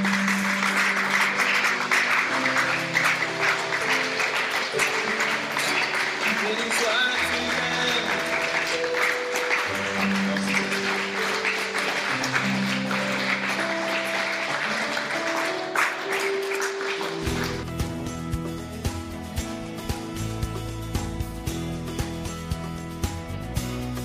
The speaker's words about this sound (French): Que quelqu'un dise Amen, Amen, Amen et acclame le Seigneur.